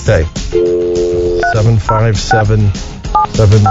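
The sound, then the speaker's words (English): A telephone number is dialed as a quick series of touch-tone beeps, each a short paired tone, including one long held tone, in an uneven rhythm of separate presses, loud and clear. “We're going to call and see what time it is.”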